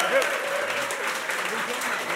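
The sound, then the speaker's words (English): Steady audience applause at a rugby club live event greets two former players. The clapping is a dense, even wash under a talking voice. “let's give a big Dolphin round of applause for Mick Galway and Gary Halpin.”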